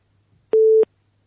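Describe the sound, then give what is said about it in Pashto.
A telephone busy tone sounds after a phone-in call is cut off: one steady, clean, mid-pitched beep lasting about a third of a second, heard alone. “اړیکه یې پرې شوله.”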